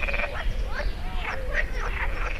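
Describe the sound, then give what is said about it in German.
Frogs croaking by a slow river, many overlapping raspy calls rising and falling in a continuous chorus over a steady low background rumble. “Während eine ebenfalls blaue Libelle um ein Kanu surrt, starten Frösche ein kleines Konzert.”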